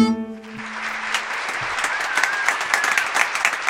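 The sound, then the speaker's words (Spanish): Recorded applause, dense and steady crowd clapping that fills the whole stretch at an even, moderate level. “Tenemos aplausos grabados. Está todo grabado.”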